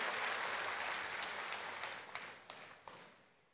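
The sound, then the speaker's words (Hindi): Applause from an audience welcoming guests at a spiritual gathering: dense, steady clapping that slowly thins and fades toward the end, leaving a few separate claps. “अनंत आकाश गूंज उठे इतनी जोरदार तालियों से अभिनंदन करते हैं, स्वागत करते हैं, स्वागत करते हैं।”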